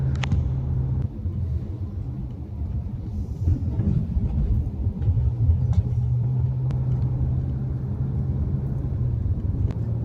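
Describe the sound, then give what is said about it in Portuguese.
A truck crawling slowly across a badly potholed bridge on a federal highway gives a steady, low engine and tyre rumble that holds throughout, with a few faint, sharp clicks above it. “O caminhão quase para na pista para poder passar dos buracos. Vejam o estado da ponte como é que tá. Não tem como passar sem pegar um buraco.”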